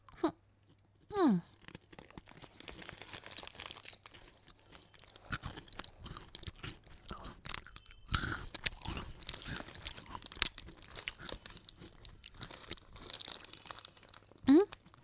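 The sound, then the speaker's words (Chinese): Crunching and chewing of chocolate-topped, mushroom-shaped biscuit snacks, eaten chocolate cap first. Many irregular crisp bites and crinkling sounds are heard, with brief vocal sounds near the start and end. “蘑菇粒当然应该从巧克力部分开始吃了。 要像这样吃哦。”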